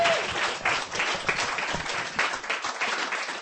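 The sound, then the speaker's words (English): Audience applause for a poetry reader at a reading, a loud, dense, continuous clatter of many hands clapping, steady from start to finish with slight swells. “That's Diana, ladies and gentlemen. Give her a hand.”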